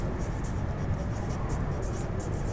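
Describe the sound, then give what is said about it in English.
Words handwritten with a pen make a continuous scratchy rasp on paper, with quick bright strokes repeating in an irregular rhythm. “I guess I would be using ancestor veneration. That's two words. I'm going to write them as one.”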